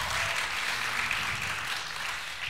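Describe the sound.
Audience applause welcoming a guest and his wife to Seacoast, a dense, steady wash of clapping that holds at an even level throughout with no voices over it.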